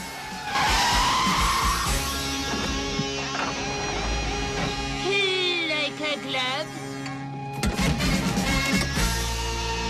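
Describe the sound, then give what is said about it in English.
A car swerving wildly through a car park and making a handbrake turn into a parking space: loud engine roar with tires skidding and squealing in wavering high tones, a brief dip, then the noisy rush returns. “He swerves wildly through the car park, then performs a skillful handbrake turn into a parking space.”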